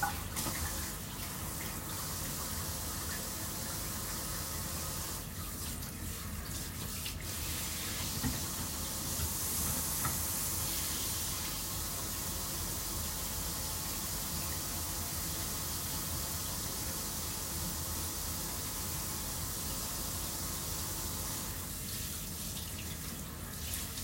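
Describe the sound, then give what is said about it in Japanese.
Water runs from a tap into a washbasin during washing, a steady, even hiss of flowing water that continues for the whole stretch with slight shifts in tone. “洗面台で洗ってる。”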